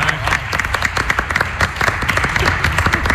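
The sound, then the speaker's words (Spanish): Applause: dense, steady clapping from a small group of people that continues evenly throughout at a fairly loud level. “A él sí, un aplauso para él.”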